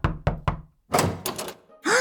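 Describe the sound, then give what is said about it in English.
Three quick, firm knocks on a study room door, evenly spaced, followed by a brief noisy shuffle. “Over there, in that study room. Look. A group of kids gathered around a whiteboard talking excitedly. It must be them. Let's knock on the door.”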